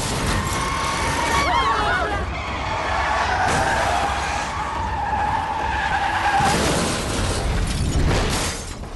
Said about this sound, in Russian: Образовалась большая авария, которая потянула за собой еще и проезжающие машины.